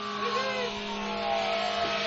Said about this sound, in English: Our ride's here. A shout out to the healthcare system in America. Yes, you said the magic words. They've come for you. They send fire trucks.